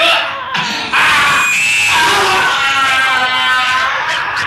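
An agonized yowl from a black cat as it leaps to attack: a loud, drawn-out, wavering cry with a strained, scream-like tone after a brief opening burst.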